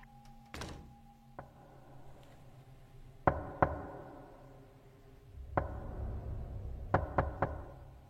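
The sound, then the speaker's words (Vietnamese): Knocking on a door at night: a few scattered dull thuds and bumps, then a quick, sharp group of three knocks close together near the end, crisp and distinct against a quiet background. “thì lại nghe có tiếng gõ cửa vang lên. Âm thanh gõ cửa, ba tiếng một, nghe đanh và rõ lắm.”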